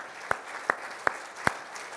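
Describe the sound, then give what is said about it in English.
A church audience claps hands in unison during a worship service, four sharp, evenly spaced claps over a low murmur of background noise. “Let's give God a hand clap.”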